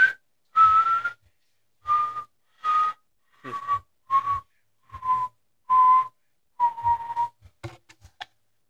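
A person whistles a series of many short, clear notes at a fairly steady mid pitch, each separated by brief pauses, with no talking.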